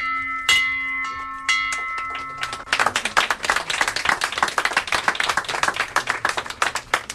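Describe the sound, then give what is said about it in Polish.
A bell hung on a hospital maternity ward, rung by a patient: a few bright metallic strikes with long ringing tones, then a lively burst of clapping and applause that carries on to the end. “Dzisiaj jako pierwsza pacjentka tego oddziału zadzwoniła pani w ten dzwon życia.”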